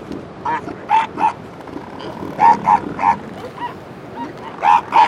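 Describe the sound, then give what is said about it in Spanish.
Newborn elephant seal pups cry and their mothers growl and bleat on a crowded beach strip at high tide below a cliff at Península Valdés, Patagonia. Short yelping cries repeat in many separate bursts, often in quick pairs. “Las crías recién nacidas gritan asustadas. Sus madres gruñen y balan.”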